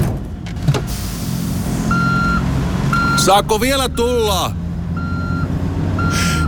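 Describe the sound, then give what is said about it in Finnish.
Reversing beeps from a vehicle backing up: a series of evenly spaced, steady mid-pitched electronic beeps over a constant background hum, with a brief warbling squeal partway through. “viititkö mennä kattoon, kun mä peruutan? Joo, tietty. Ja huudat sitten kovaa seis.”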